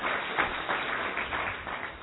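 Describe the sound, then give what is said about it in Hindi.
Faint audience clapping at a yoga gathering: a soft, steady patter of many hands with no talk over it. “हाँ, बहुत अच्छा भाई, ताली बजाओ”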